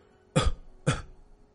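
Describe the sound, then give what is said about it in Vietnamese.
Two light, weak coughs from a wounded man coughing up blood, short and soft, evenly spaced and heard alone without talk. “Lữ Bất Vi vô lực phất tay nói, tiếp theo ho nhẹ và vài búng máu.”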